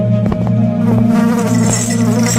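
Flies swarm and buzz over wounds on chain-chafed legs in a jail, making a loud, steady droning hum of layered tones that never pauses.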